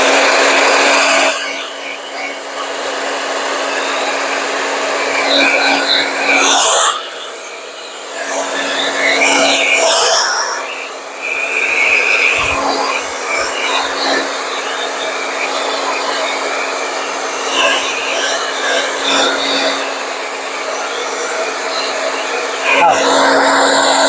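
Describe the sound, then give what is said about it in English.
A hair dryer blows with a loud, steady, droning whine and a fixed low hum, running almost continuously and dipping briefly a couple of times before resuming at full strength. “Okay, I'm going to blow dry. I'll turn it on, and then you'll know what I'm doing, and then I'll pause it.”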